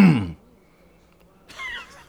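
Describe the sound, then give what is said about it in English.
A brief throat clearing: a short voiced rasp, then silence and a softer second burst. “So, because the pause game isn't really, you know, a thing anymore, that great, we're just gonna clear our throat.”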